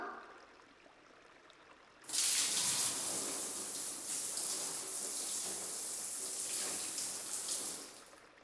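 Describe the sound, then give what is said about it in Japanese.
Warm water is poured to rinse someone off. A quiet lead-in gives way to a sudden, loud, steady gushing rush that lasts about six seconds and then stops. “よしっと、そろそろ洗い流していこっか。お湯かけるよ。”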